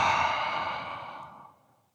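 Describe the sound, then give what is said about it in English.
A single long, breathy exhale from a meditation exercise, the mouth-open breath used to fog a mirror after an inhale through the nose. It starts loud and fades away steadily over about a second and a half, with no talk. “One more time, we'll inhale through the nose and fog the mirror.”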